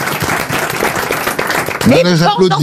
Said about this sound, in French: Là, j'applaudis. Quand elle trouve un truc aussi, c'est pas facile de citer Timsit, et elle a trouvé. Là, j'applaudis, ça m'épate.